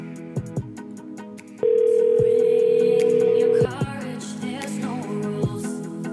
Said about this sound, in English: Come on, phone number, you can do this. Try the landline and then I'll go back to that one.